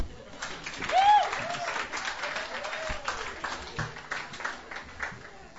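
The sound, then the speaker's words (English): Audience applause welcoming a guitarist and singer onto a songwriters' stage: a steady wash of clapping that lasts throughout, loudest in the first second or so and then holding at an even level. “All right, everybody, please put your hands together.”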